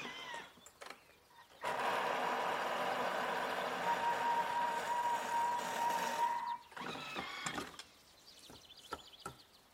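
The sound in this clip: An electric mixer's motor whirs steadily for about five seconds as it blends a thick, creamy mousse, then cuts off, followed by a few faint clicks and clatters.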